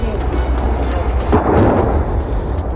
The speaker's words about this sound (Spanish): Es el sonido de una de las al menos tres bombas que cayeron en la ciudad de Leópolis